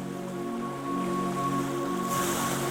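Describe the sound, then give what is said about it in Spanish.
Ocean waves wash onto a beach in a soft, continuous surf that swells a little near the end, over a sustained, steady tonal hum. “y las olas se acercan y se retiran con el ritmo pausado de una respiración tranquila.”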